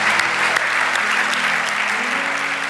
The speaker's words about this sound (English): let's clap our hands to the Lord for what he's done in our lives.